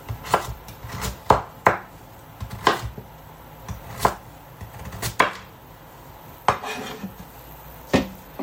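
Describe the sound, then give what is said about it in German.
A knife cuts a carrot into centimetre-wide slices on a cutting board, making many sharp, irregular knocks on the board. Quiet gaps separate them, and no one speaks. “Die bleibt dann schön liegen auf dem Schneidbrett. Und mache mir dann auch so Zentimeter breite Scheibchen.”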